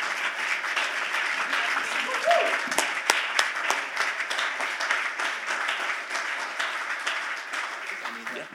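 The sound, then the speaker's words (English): A church audience applauds with steady, dense clapping that holds an even level throughout, with some voices mixed in. “Come on, throw your hands together.”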